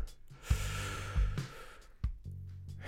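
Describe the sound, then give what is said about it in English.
A big, deep breath in during a guided breathing exercise: a quiet, airy intake broken by a few soft, low catches and thumps. “So, three big, deep breaths. Here we go. One, big breath in.”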